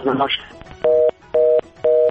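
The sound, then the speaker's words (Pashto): Telephone tone after a call is cut off: a brief voice, then three loud, evenly spaced steady beeps with short silences between. “ډیره مننه د ټلیفون کولو مو خرابته هم کټ شو.”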